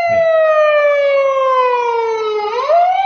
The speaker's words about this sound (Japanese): 今、車がやってきますね。 あ、そう、パトカーが。